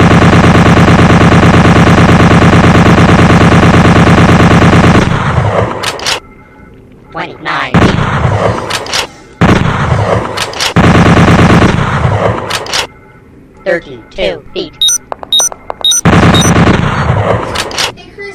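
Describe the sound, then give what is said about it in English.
Automatic bolt gun firing in an audio-only first-person shooter game: a long, unbroken burst of about five seconds, then several shorter harsh bursts separated by brief gaps, all loud and sharp. “Automatic bolt gun, 400 M42.”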